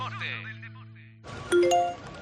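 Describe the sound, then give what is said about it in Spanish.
A Securitas Direct alarm app notification chime sounds as a short, bright run of a few ringing notes, entering right after an abrupt cutoff of a steady, tone-laden passage. “Notificación Securitas Direct. Persona detectada en el jardín.”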